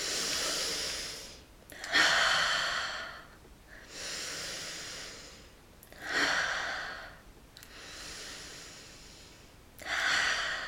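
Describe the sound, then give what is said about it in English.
Three deep breaths during a guided breathing exercise, each a long airy inhale and slow exhale in an unhurried rhythm, with no talking. “We're going to close our eyes and we're going to do three deep breaths.”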